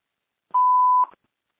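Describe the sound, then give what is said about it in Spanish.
A voicemail tone before leaving a message: one clean, steady electronic beep at a single mid-high pitch, lasting about half a second, alone in silence. “Hello, no one is available to take your call. Please leave a message after the tone.”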